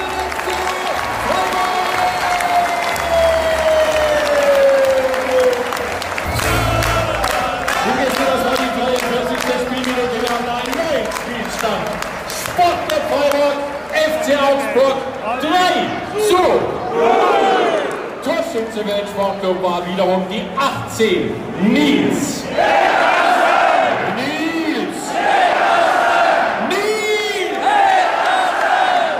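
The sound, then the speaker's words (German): Stadium crowd roaring at a Bundesliga match as SC Freiburg score, the goal coming from substitute Nils Petersen. The loud, sustained roar of massed voices runs the whole half-minute, with shouts and whoops rising out of it and waves of chanting later on. “So hört es sich an, wenn beim Bundesligaspiel des Sportclub Freiburg der Joker Nils Petersen mal wieder getroffen hat.”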